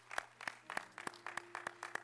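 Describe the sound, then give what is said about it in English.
Faint rhythmic clapping from a church audience applauding a choir and young people, with evenly spaced claps repeating at a steady pace. “Let's give that choir, amen, and our young people a round of applause.”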